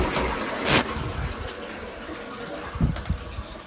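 A toilet is flushed: a short sharp burst gives way to a steady low rush of water, with a small knock late in the flow.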